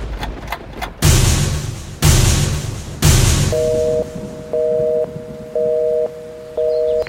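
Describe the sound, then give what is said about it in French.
French theatre's traditional three knocks before the curtain rises: a few faint quick taps, then three heavy, evenly spaced booming knocks, followed by four steady, sustained electronic tone pulses. “Maintenant que vous savez tout, il est temps de frapper les trois coups et de lever le rideau.”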